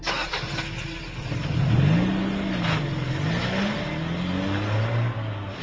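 A racing car engine revs, its pitch swelling and dropping several times in smooth waves before settling into a steadier, higher whine near the end, held at a moderate, fairly constant loudness.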